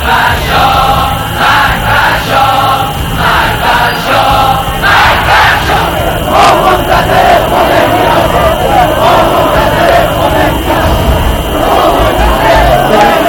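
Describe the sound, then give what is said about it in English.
A vast crowd of protesters chants and shouts at anti-Shah demonstrations in Iran. The massed voices are loud and continuous, with a recurring pulse running through them. “The anti-Shah demonstrations started growing in their millions nationwide, despite a heavy-handed crackdown by the military.”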